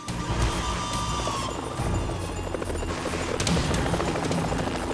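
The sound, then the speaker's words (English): Helicopter hovering low over a grassy slope, its rotors churning up a strong downdraft. A loud, steady, dense roar of rotor and engine noise holds throughout, with no voices. “The chopper slows and hovers above Jim. The downdraft from the rotors churns up the grass like a mini tornado.”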